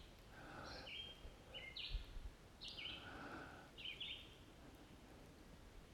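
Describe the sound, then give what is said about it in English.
A bird calls outdoors in several short, high chirping phrases spaced a second or so apart, quiet over a soft background hiss. “Oh, the bird went silent. Oh, there he's back.”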